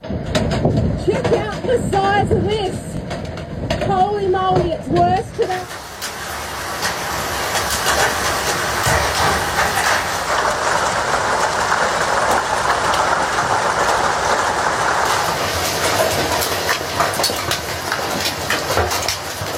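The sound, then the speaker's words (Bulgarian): Cricket-ball-sized hail pounds roofs during a severe storm near Brisbane. A voice talks first, then a dense, loud, continuous rattling roar takes over and holds steady to the end. “Тоа е звукот на град кој удира по покривите.”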